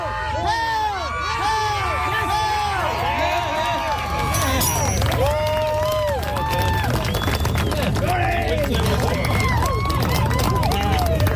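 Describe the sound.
A crowd cheers, whistles and shouts loudly as an athlete lifts the heavy Scottish Dinnie Stones, the excited roar continuous and dense throughout, with high whoops rising above the din.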